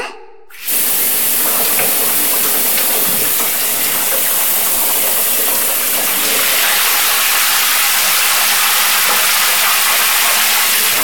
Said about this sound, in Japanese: 全身もこもこになってる。シャワーで流して、一緒にお風呂に入ろう。じゃ、流すね